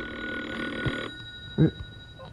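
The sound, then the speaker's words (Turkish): A telephone rings with a bright, buzzing electronic tone that lasts about a second before cutting off. A faint thud and low background noise follow. “Telefon. Telefon çalıyor”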